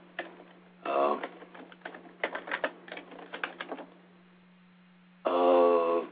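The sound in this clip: Keyboard typing while someone writes text: a quick run of light clicks in the middle, framed by a few short tonal bursts.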